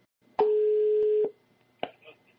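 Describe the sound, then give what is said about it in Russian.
A telephone tone sounds on a call to a busy number: one steady, mid-pitched beep lasting under a second, followed by the start of a voice. “Извините, вызываемый номер занят.”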